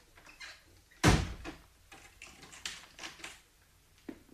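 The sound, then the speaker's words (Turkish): A door shuts with one sharp thud, followed by a few light clicks and rattles as it is locked. No one speaks. “gazeteleri alıp kapıyı kilitle.”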